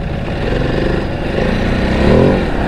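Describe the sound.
A motorcycle engine drones steadily while the rider crosses wet grass on a tall bike, with a rough, even rumble that swells slightly near the end.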